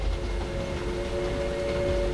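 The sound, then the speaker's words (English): A train runs steadily along its rails, heard from inside a private compartment as a continuous low rumble with a faint steady hum, constant in loudness and with no separate clacks or horn. “Mere hours later, I settled into a train's private compartment.”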